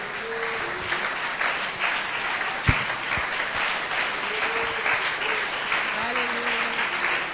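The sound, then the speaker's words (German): A church audience claps hands during a bilingual worship service, a dense, continuous wash of clapping with voices rising over it and a few sharper, louder claps standing out. “Acclamons encore le Seigneur. Lass uns mit den Händen klatschen.”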